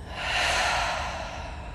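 A deep breath let out through an open mouth during a guided breathing exercise: a single long, airy rush that swells quickly and then holds steady before easing off, with no other sound.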